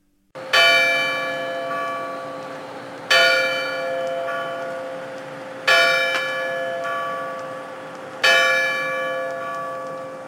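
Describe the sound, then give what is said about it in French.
Bells of a nineteenth-century Catholic church toll four slow, evenly spaced strokes, each striking bright and loud and then ringing on in a long humming decay before the next. No voices. “c'est une église qu'on entend sonner là. Oui, c'est l'église catholique Saint-Mainbœuf.”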